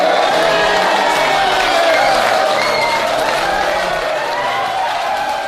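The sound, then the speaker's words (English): Rugby team players cheer, shout and clap in a dense, loud, continuous roar as their new captain is announced, the noise holding steady from start to finish. “And you can hear all the boys going crazy in the background.”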